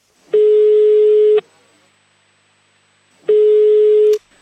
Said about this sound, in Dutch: ik ga even met mijn vrienden van de ESA bellen, want ik denk dat zij daar wel een antwoord op gaan weten.